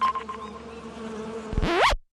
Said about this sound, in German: Das Bienensummen wird leiser und es ist höchste Zeit, dass wir Insekten besser schützen.